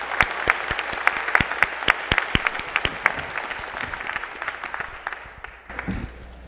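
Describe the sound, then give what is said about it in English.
An audience claps to welcome a guest pastor from the Brooklyn Tabernacle. Many sharp, distinct hand claps form lively applause that gradually thins out, then swells briefly again near the end. “I want us to put our hands together one more time and welcome our guest, Pastor Jim Simmel from the Brooklyn Tabernacle.”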